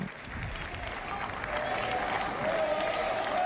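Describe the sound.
Sustained applause from a crowd acclaiming the flags of the Holy See, dense and steady throughout and swelling slightly toward the end.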